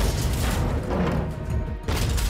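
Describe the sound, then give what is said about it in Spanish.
A charge explodes in a war scene: a dense, loud, roaring rumble with low booming surges, briefly dipping and then swelling again near the end, with no voices. “Y de repente, una carga explota al lado tuyo. Otra carga.”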